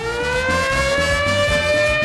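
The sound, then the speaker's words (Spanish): A siren sound effect, used as a radio station's prize-giving siren, wails loudly and continuously with its pitch climbing slowly and steadily, while rhythmic lower sounds pulse beneath it. “Y recuerda que de la mano con nuestra sirena premiadora Olímpica,”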